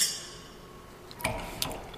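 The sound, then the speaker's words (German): Glasses clinking in a toast during a tasting of fermented drinks: two short, bright clinks less than half a second apart, fairly faint, with no voices. “Wir stoßen nochmal an damit.”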